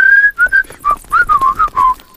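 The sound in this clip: Whistling from people strolling out of a village: a bright, clear tune of many quick notes, with a longer opening note followed by shorter phrases. It is fairly loud and heard alone, with no talk.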